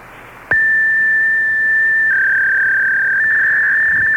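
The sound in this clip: Fax machine tone over a phone line, a steady piercing high note that starts abruptly after faint line hiss, drops slightly in pitch partway through and then climbs back, holding loud and unbroken for several seconds.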